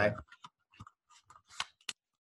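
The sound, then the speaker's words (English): A full 52-card deck of playing cards being tidied and slid into its box: a sparse run of soft clicks, taps and papery scrapes, all quiet, with short pauses between them. “But Adam, 52 cards in a deck. It's all a mess. I'm going to put them into the box here,”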